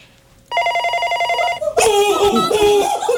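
A telephone ringing: a steady, high electronic ring tone sounds for about a second, then gives way to a louder, busier burst of sound.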